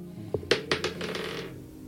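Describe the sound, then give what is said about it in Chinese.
Two dice rolled onto a surface give a few quick clattering knocks and a short rattle that fades, fairly faint against a steady low background hum. “就是投两个骰子去最低， 两个 ，嗯， 投两 遍吧，投两 次 吧。”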